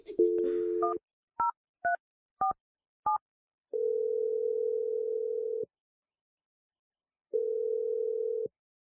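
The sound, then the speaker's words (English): A landline telephone gives a steady dial tone, then several short two-tone keypad beeps in quick succession, followed by two long, level ringing tones separated by silence. “Let's just dial the number.”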